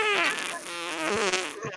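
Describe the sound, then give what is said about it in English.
A fart sound effect, joked about as cheese popcorn passing after a football game, gives a loud, buzzy, sustained blat with a wavering, voice-like tone. It runs for about two seconds at steady strength. “that's the sound of the cheese popcorn coming out the backside after the game.”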